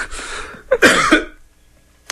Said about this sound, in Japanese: むせてしまいました。むせてるじゃないですか、もう。